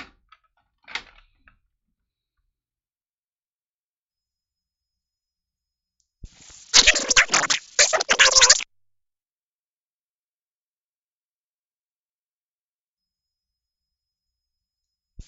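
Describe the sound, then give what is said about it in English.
Cassette tape being loaded into a tape player: a small click, then long silence, then a roughly two-second burst of loud rattling, clattering mechanism noise, and one more brief click at the very end. “Let's throw another tape in.”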